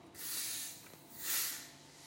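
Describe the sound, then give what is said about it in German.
Soft hissing from a carbonated mineral water bottle being opened slowly, with gas escaping in two gentle swells, the second a little stronger. Quiet, with no talk. “Na gut, dann werde ich mir mal ein Mineralwasser eingießen. Langsam aufmachen.”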